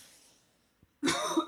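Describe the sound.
A man clears his dry throat with one sudden, loud, rasping burst after a quiet pause. A short coughing rasp sits on top, and a small faint tick comes just before it.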